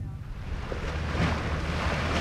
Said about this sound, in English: ferry to the Aran Islands off Ireland's west coast can be bracing